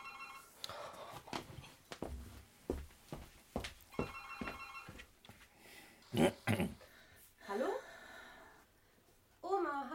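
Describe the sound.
A telephone bell rings in a home, repeated rings heard faintly beneath people talking.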